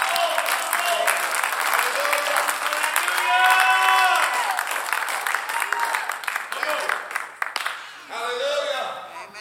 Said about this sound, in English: come on, clap your hands with me right now.